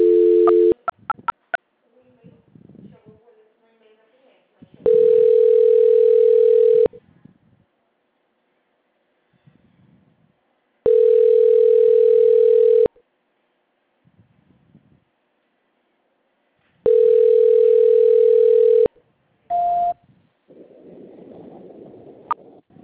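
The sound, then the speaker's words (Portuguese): Telephone line tone during a call transfer: long, steady tones repeat at regular intervals, three full ones with shorter bursts near the start and end, separated by quiet gaps holding faint rustling and low murmur. “Meu celular, só mais um momentinho que eu tô tentando transferir. Demora um pouquinho para atender, só um momento. Transferência.”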